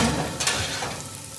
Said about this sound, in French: Ouh, ça sent bon. Il y a l'huile qui frémit. Elle frémit de joie.